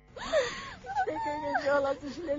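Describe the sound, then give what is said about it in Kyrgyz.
A woman wails and weeps in grief at a landslide site. Her voice rises and falls in wavering, sobbing cries, loud and sustained with short catches of breath. “сай сөөктү сызатып ыйлап турду”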